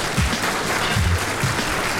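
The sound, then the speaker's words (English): A round of applause: many hands clap in a dense, steady wash of sound that holds at an even, fairly loud level from start to finish. “1-2-1-2, round of applause, round of applause. Let me get that round of applause going.”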